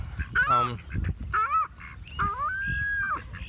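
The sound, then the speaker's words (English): Ducks quacking and honking, heard as a few loud, nasal, strongly tonal call bursts that come in irregular groups over a low rumbling background. “You're probably hearing the ducks in the background, by the way.”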